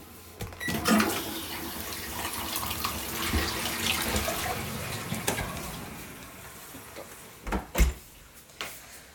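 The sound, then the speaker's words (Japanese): Tap water runs steadily into a sink as someone rinses and washes their hands, a continuous hissing splash with a few sharper knocks and clunks near the end. “これ手まで洗った方がいいかな、まあ、手まで洗うか、よいしょ。流しますね。”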